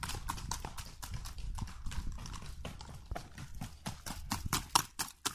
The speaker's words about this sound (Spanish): Yo creo que el paso más bonito de todos es el paso fino que se escucha en los cuatro tiempos